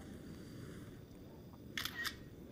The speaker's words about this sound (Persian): میشه ازش عکس بگیرم لطفا؟